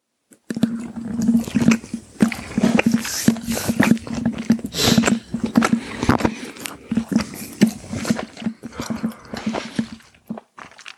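Chewing and biting on a cooked tuna and salmon rice dish with soy sauce, the long-grain rice quite broken. Many soft, wet clicks and squishy bites follow one another steadily, with a low steady hum underneath.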